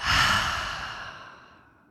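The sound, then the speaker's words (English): An open-mouth exhale from a guided breathing exercise. One long, breathy sigh starts strong and fades steadily to silence over about two seconds. “we'll take a deep, full breath in. Open mouth, exhale.”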